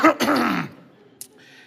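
A person gives a pointed cough: one short burst followed by a longer, rasping one, fairly loud, then near quiet with a single faint click.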